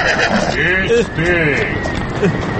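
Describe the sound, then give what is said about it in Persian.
A horse whinnies loudly as a rider approaches, with two wavering neighs over a dense, noisy background. “یا خدا این اسب سوار کیه داره نزدیک میشه؟”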